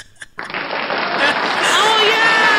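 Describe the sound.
Studio audience applause bursts in after a brief lull and holds as a loud, dense, steady wash of clapping to the end.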